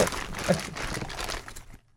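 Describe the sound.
Wrapping paper being ripped open on a present: a continuous crackling, crinkling tear with a few sharper snaps. The sound lasts most of two seconds, then stops abruptly into near silence.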